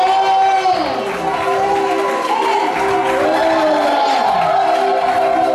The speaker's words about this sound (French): Acclamons le Seigneur, s'il vous plaît. Acclamons le Seigneur, le roi des rois.